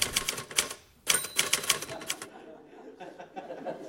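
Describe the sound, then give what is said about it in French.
Old Remington typewriter keys clacking in rapid, loud bursts of keystrokes, broken by a short pause, then continuing before fading to fainter, sparser taps. “il tapait sur sa vieille Remington. C'était... on entendait le clic-clac de la machine à écrire de Georges”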